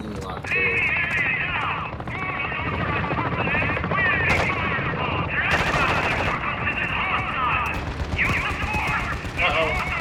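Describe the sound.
Rapid gunfire in a video game, bursts of crackling shots repeating throughout over dense game noise, with people talking over it.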